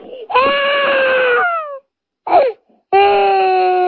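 A person wails loudly and theatrically as a joke: a long drawn-out cry whose pitch sags at the end, a short choked sob, then a second long wail. There is no other talk.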